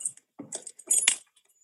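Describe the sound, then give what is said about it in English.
Keys jangle on a key used to lock a humidifier, giving a few short bursts of bright metallic clinking and rattling separated by brief silences. “I think I locked myself out of the humidifier. Oh, wait. I got the key to the humidifier.”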